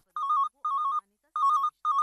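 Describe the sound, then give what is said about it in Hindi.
A telephone rings with an incoming call to a radio call-in show: four bright, trilling electronic ring bursts separated by short silences, the last one cut off, loud and with no voices. “Calls आने लगे हैं, लेते हैं आपका call.”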